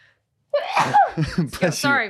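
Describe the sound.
One sharp, explosive sneeze breaks a brief silence and is quickly followed by someone talking.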